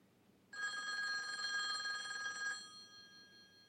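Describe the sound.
A telephone rings once, a steady, bright electronic trill lasting about two seconds over a faint background hum, then cutting off and leaving a fading tail.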